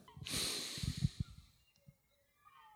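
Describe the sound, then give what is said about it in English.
A single slow inhale through the nose during a mindfulness breathing exercise: a soft, airy hiss lasting about a second with faint snuffling, then near silence. “Let's take a breath in through the nose.”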